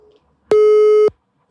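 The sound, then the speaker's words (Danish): A telephone call-signal tone sounds as a single loud, steady electronic beep lasting about half a second, alone against silence. “Vi ringer til Mavro.”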